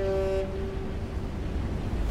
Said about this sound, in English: A propeller spins under the sea, powering a cruise ship sailing above.